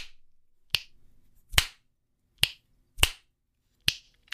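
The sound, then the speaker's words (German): Crisp finger snaps, a handful of sharp, bright clicks alone in near silence, each ringing briefly and spaced at slightly uneven intervals. “Jetzt, jetzt schnips ich mal. Boah, es ist leise.”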